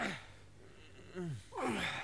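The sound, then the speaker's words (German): Men working hard breathe heavily, with a few strained breaths and voiced, groaning exhalations in short bursts. “Das schwere Atmen dieser Männer entspringt keinerlei jugendgefährdenden Motiven. Im Gegenteil, hier wird hart gearbeitet.”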